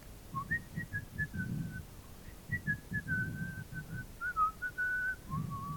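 A man whistles a tune to himself, hands in pockets, as he walks away: a light, wandering melody of short and held notes, with soft low thuds underneath.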